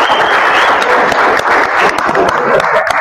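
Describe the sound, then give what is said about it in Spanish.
Applause from an audience welcoming the new coaching staff of the Club Real Potosí football team, a dense and steady clapping that holds at an even loudness for its full length. “Un aplauso.”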